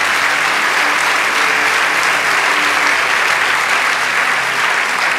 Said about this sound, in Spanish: Vamos, dale ese aplauso.